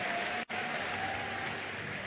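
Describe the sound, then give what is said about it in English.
A church audience clapping hands, a dense, steady patter of applause that continues throughout apart from a brief dropout near the start. “Give the Lord a big hand clap and please be seated.”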